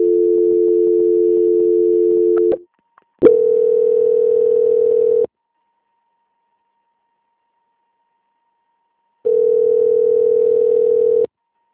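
A telephone line tone plays during a call transfer: three steady, loud tones of about two seconds each, with a click and brief gap between the first two and a long silence before the third.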